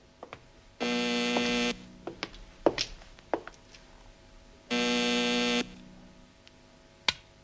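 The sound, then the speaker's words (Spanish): A telephone switchboard call ringing in two buzzing bursts, each about a second long and spaced a few seconds apart, with clicks and knocks between them and a sharp knock near the end. “sigue sonando la llamada. Pero no acabo de acertar con la clavija de esta centralita.”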